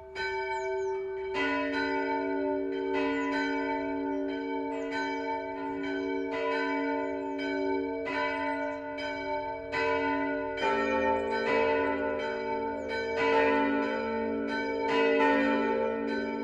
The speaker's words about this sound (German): Das Mittagsläuten kommt heute von der evangelischen Michaelskirche im mittelfränkischen Rasch.